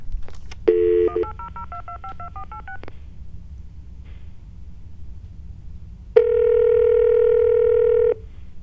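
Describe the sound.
Touch-tone dialing of a toll-free number: a quick run of many short dual-tone beeps, then after a pause a single steady tone lasting about two seconds, over faint background hum.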